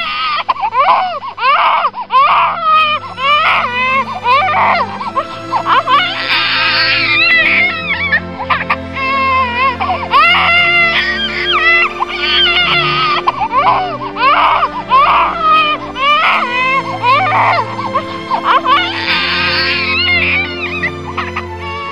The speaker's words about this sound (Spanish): Y ese desgarro del bebé que llora puede dar el tono, insinúa Alice Miller